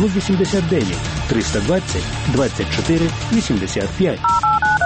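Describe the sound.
Telephone keypad dialing tones ring out as a quick run of short, clear electronic beeps near the end, following a voice speaking steadily over the line.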